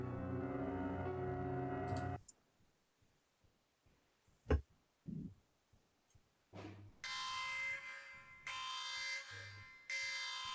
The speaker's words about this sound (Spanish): La alarma de la nave te saca de tu ensoñación.